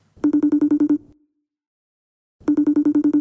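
A telephone ringing on an unanswered call: two loud bursts of rapid electronic trilling pulses separated by silence.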